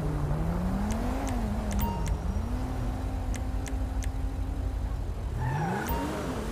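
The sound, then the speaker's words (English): Car engine in a police video game as a car speeds off: a steady droning motor whose pitch wavers, then climbs near the end, with a few faint clicks above it. “Love how he just brake checks me and speeds off.”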